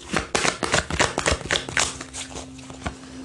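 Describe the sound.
A tarot deck being handled as a card is drawn: a quick run of many crisp, papery card snaps and riffles, fairly quiet, fading toward the end.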